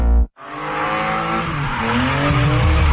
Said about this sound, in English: Experience wall-to-wall racing, high-speed action, and non-stop excitement on their stadium circuit.